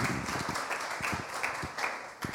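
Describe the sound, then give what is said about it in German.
Faint applause for a performer, a handful of people clapping in uneven, separate bursts, quiet throughout. “Applaus für ihn, so gut.”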